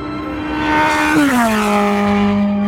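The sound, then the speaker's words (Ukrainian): Lamborghini racing sports car speeds past at a town entrance, its loud, steady engine whine dropping sharply in pitch as it goes by, then holding a lower tone. “Ух, та це ж славнозвісний гонщик Ламборджині!”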